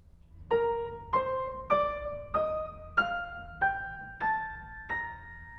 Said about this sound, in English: If I were to use all 1/5, it would sound like this.